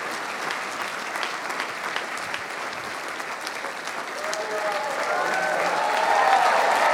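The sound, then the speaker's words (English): Applause from a church audience answering a preacher's call to clap, a dense, steady wash of hands that swells louder toward the end, with a voice faintly present beneath it. “If you receive that, clap those hands one more time.”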